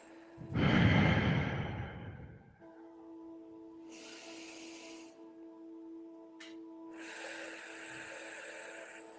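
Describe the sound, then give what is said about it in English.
A single deep breath is drawn and exhaled as a loud, breathy rush lasting about two seconds, followed by a steady low tonal hum with soft airy hiss above it. “We could take a break. We could take some breaths. Yeah. Sure. Let's do that.”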